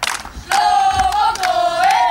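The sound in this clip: A crowd roars, cheering and shouting for a singer at an event in Be'er Sheva. A sustained voice rides over the loud, rough din, which swells and carries on after a brief dip near the start.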